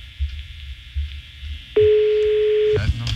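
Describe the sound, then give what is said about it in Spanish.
A telephone ringing tone sounds once during an unanswered call: a single steady, mid-pitched tone lasting about a second, over faint low background noise. “Está sonando el teléfono este infeliz Santa Claus.”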